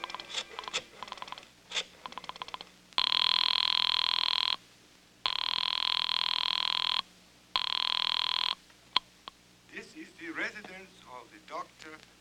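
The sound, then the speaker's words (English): A telephone rings after a number is dialed: a series of quick clicks comes first, then three long, loud electric rings with short gaps between them, and a voice follows. “I dug through the telephone book and I found Dr. Matson B. Forsyth's number and I dialed it.”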